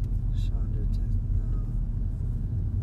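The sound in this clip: Car driving around Los Angeles looking for a parking spot, a low, steady road and engine rumble throughout, with a voice talking over it.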